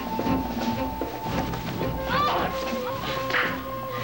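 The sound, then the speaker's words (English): A sharp slap and the heavy thud of a body falling onto the floor, short impacts set within a dense, continuous background that carries sustained tonal hums throughout. “She tears his hand from her neck, then slaps him and falls back onto the floor.”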